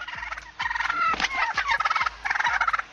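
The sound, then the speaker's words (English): Plump turkeys gobbling: loud, rapid rattling gobbles in several overlapping bursts, one quickly following another. “Turkeys aren't the nicest. Look how plump they are.”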